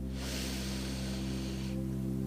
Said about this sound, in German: Dieses Mal kurz halten und durch den Mund wieder ausatmen.